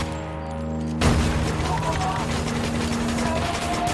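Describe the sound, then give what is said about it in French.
Gunfire after an order to open fire in a combat scene: after a second of low tonal drone, a dense, loud volley of many rapid shots erupts abruptly and keeps going to the end. “Ouvre le feu”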